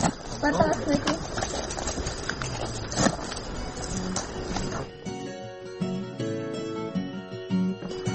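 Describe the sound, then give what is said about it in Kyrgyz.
Donkeys' hooves clop in an irregular, fairly busy rhythm as the animals set off on their own along a mountain path, mixed with voices, and music comes in over the latter half. “Бул эшектер көнүп калыптыр, өзүлөрү жолду билет экен. Өзүлөрү жөнөдү.”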